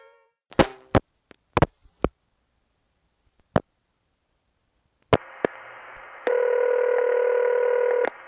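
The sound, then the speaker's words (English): Telephone line sounds as a long-distance call to Suffolk County, on the eastern end of Long Island, goes through: a few sharp clicks and a brief high beep, then a hiss of open line and a loud, steady multi-tone signal. “When I would dial a number in Suffolk County, which is the eastern end of Long Island, from Neil's house, the call would go through like this.”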